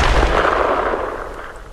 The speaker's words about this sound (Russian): Трясущимися руками приложил приклад к плечу, попытался прицелиться. «Не могу, оружие ходуном ходит. Пожалуйста, не мучай меня!» Я выстрелил, до треска сжав зубы.